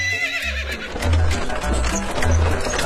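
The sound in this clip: A horse pulling a carriage neighs in a shrill, quavering whinny at the start, followed by steady clip-clop hoofbeats and low rolling thuds from the carriage that continue to the end.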